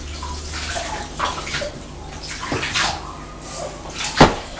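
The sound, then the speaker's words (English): Water splashes in a bath as a child's face is washed and hair rinsed: irregular sloshing splashes, with one sharper, louder splash near the end. “Go wash your face now. That's a good girl. Oh, lovely and clean. And your cheeks. You just rinse your hair.”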